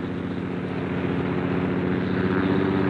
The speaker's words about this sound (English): Then the air was filled with sound as he lifted the bomber off the ground.